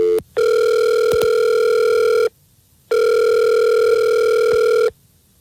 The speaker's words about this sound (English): Let's call him right now.